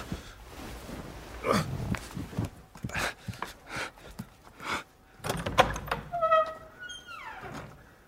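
A door being opened: a run of knocks and thuds, then a drawn-out squeaky creak that slides down in pitch toward the end.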